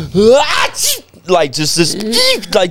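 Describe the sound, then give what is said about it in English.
A man's voice imitates a sneeze that is forceful yet weak and squeaky, as a big, tall man would make it: a few loud bursts of high, voiced squealing with rising and falling pitch, one after another. “he would sneeze so aggressively, but it was like a squeaky shit.”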